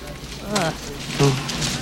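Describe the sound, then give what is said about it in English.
Vomiting sound effect from a Chris Farley puking clip: two short, voiced retching heaves, each a throaty gagging burst of moderate loudness, separated by a brief pause. “I had to splice in a Chris Farley puking sound to stand in. The real puking noise is too gross to play on the podcast.”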